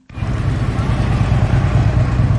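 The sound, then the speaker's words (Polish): Engine rumble from a street parade of several hundred motorcycles in Chicago: a continuous, loud, low drone with a rough, throbbing texture that holds at an even level throughout. “Ulicami Chicago przejechała parada z okazji stulecia odzyskania przez Polskę niepodległości. Uczestniczyło w niej kilkuset motocyklistów.”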